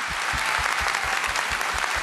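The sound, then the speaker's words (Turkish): Audience applause for a performer, many hands clapping in a thick, sustained roar that stays loud and even across the whole stretch. “Daha güçlü alkışlar.”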